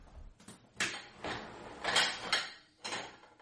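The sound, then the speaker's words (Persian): Cans of chickpeas are opened while cooking falafel, giving faint metallic scrapes and clunks in several short bursts at an irregular rhythm. “کنسروای نخودم رو باز میکنم”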